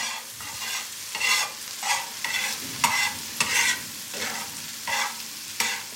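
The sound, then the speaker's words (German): A fried egg sizzles in a pan with a steady hiss, while a spatula turns and scrapes it back and forth in many short, rhythmic bursts that rise above the frying. “Das ist ein Spiegelei in der Pfanne, gebraten mit einem Pfannenwender hin und her.”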